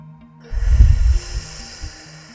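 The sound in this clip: Deep breathing: one loud, rushing, breathy exhale lasting under a second, followed by a softer short breath, with no talking.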